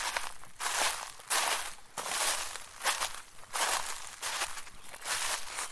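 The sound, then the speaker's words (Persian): Footsteps walk over dry tree leaves, producing a steady run of crisp, crunchy footfalls with a rustling crackle at each step. “صدای را رفتن روی برگ خشک درخت بود”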